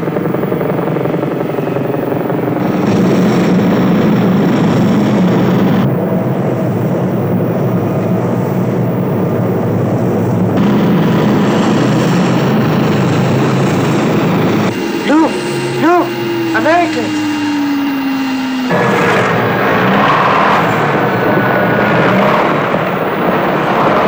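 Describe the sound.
Airplane engines drone loudly and continuously on the ground while people surround the aircraft, with men shouting in Italian over the roar.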